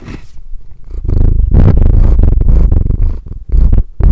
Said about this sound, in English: I wonder if people can hear him purring.